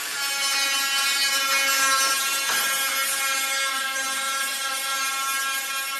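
An angle grinder grinds the bodywork of a red 1958 Jaguar E-Type, a 250-horsepower classic car being fully restored in a workshop. It gives a loud, continuous, harsh whine with dense overtones that stays steady throughout, with no talk.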